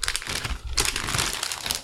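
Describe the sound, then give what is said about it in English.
Crinkling of a foil pouch with a zip seal, like a microwavable dinner pack, as it is handled: dense, continuous crackling and rustling, bright and fairly loud throughout. “So this looks like a, almost like a microwavable dinner kind of a thing, kind of a foil pouch. What's interesting is it's like a Ziploc kind of a deal.”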